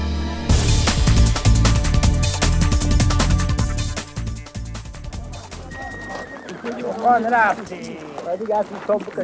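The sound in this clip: Horses arriving after a long mountain journey in the Afghan Pamir clatter with a dense rush of hoofbeats, followed later by whinnying calls.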